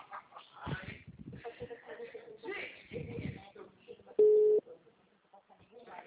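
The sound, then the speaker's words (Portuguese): A telephone tone sounds after a dropped call: one short, steady, mid-pitched beep, clearly louder than the thin phone-line voices talking before and after it. “ligação caiu”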